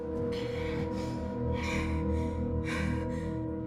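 Heavy breathing from a frightened young woman braced inside a bathroom stall: a few ragged, breathy gasps rise and fall over a low, steady musical drone, with no talk.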